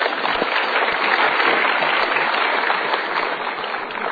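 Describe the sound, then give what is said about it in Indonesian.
Studio audience applause at a talk show: a dense, steady wash of many hands clapping that holds an even level for about four seconds. “Kita berikan tepuk tangan.”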